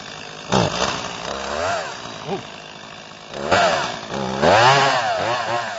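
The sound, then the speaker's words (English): A chainsaw engine runs and revs in uneven surges, snarling louder in bursts and growing strongest toward the end. “Does everybody know what this is here? It's a chainsaw.”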